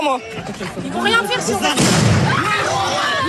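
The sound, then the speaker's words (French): A stun grenade explodes outside a high school: a single sharp, loud blast bursts out midway amid raised voices and shouting. “Le son que l'on vient d'entendre, c'est l'explosion d'une grenade EFSON. Une grenade assourdissante, la grenade assourdissante même”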